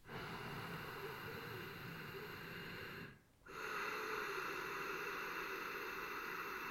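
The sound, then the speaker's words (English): Constricted-throat breathing through the nostrils, demonstrated as a breathing technique: a soft, steady hissing breath lasts about three seconds, stops briefly, then a second equally steady, breathy rush follows. “So it's also called Darth Vader breath. So what you do is you constrict the back of your throat. It sounds like this.”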